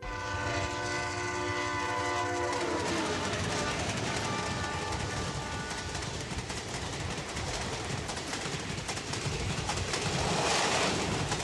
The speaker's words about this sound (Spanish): ¿Está el tren ahí que nos lleva?